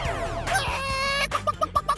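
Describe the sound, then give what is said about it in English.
A person imitates a chicken with five quick, clipped clucks in an even rhythm. Sweeping, warbling electronic tones come first. “Not until you cluck like a chicken.”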